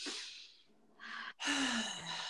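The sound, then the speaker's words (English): Deep breath taken together by a group: faint, airy breath sounds, a soft inhale and a pause followed by a longer, fuller exhale. “So everyone just take a deep breath together.”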